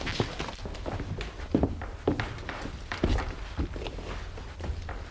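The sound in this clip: Footsteps of someone sneaking unnoticed from one room of a house into another, many soft, uneven steps with a few heavier thuds, set against steady background noise.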